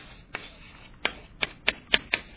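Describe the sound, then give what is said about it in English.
Writing on a board gives six faint, sharp taps and scrapes in an uneven rhythm, each short and crisp against near-silence. “Let me just write that up here. Well, let me actually write it down here, because this is where the guy was.”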